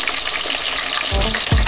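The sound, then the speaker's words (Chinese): Battered chicken foot tendons deep-frying in hot oil give a steady, loud crackling sizzle, with a couple of low bumps near the end. “裹好糊的鸡脚筋下油锅炸至两面金黄，再与辣椒丝、花椒、麻椒一同爆香”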